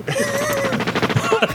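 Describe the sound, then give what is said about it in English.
A machine gun sound effect dropped into a news show: a rapid, evenly spaced rattle of shots runs through the second half, mixed with a moaning, wavering voice-like tone. “They just happen to have a machine gun sound effect at the ready in a news show.”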